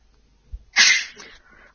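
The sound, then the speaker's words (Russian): A person sneezes once: a short soft intake, then a sharp, loud burst that tails off quickly, with no talk around it. “чихает, его вспоминает”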